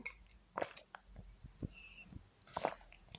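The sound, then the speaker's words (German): A person drinks a beverage, with soft sips, swallowing sounds and small mouth clicks, all quiet and close, in a few separate bursts. “So, bin heute irgendwie sehr durstig, wenn ich so viel rede. Jetzt muss ich noch mal was trinken.”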